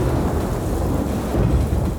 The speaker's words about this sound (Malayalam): പുറത്തെങ്ങും നല്ല ഇരുട്ട് മഴക്കാറുമുണ്ട് നല്ല ഇടിയും മിന്നലും